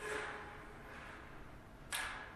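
A live-animal cage trap for raccoons, whose door swings up and locks in place, slams shut in one sharp, abrupt clack near the end. Before it there is only faint, steady hiss.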